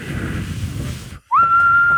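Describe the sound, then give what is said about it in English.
A person whistles by sucking air in. After a brief silence, a loud, clear tone starts with a quick upward slide, then holds one steady pitch to the end. “I can suck in a whistle, but I cannot blow out.”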